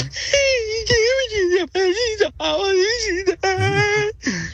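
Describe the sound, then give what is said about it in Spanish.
A voice imitates crying for a character in a joke: a string of wavering, whimpering wails rising and falling in pitch, broken by short catches of breath. “Y comienza a voltear un lado para el otro y comienza a llorar.”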